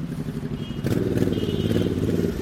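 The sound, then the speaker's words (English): Traffic at a busy intersection in Ikoyi, Lagos, at evening rush hour: a continuous low engine rumble with motorcycle-like droning that swells louder partway through and stays steady to the end. “I'm walking alongside a busy intersection in Ikoyi, one of Lagos's most affluent areas. It's evening rush hour and thousands of people are making their way back home from the office.”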